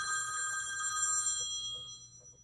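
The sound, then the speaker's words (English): Telephone ringing as a caller is dialed, a faint electronic ring of bright, layered high tones that cuts off partway, leaving only a low hum. “I do have a call here. Let's dial up the number.”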